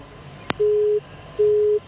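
A telephone busy tone after a call is cut off: a sharp click, then two steady low beeps of equal length separated by a short pause.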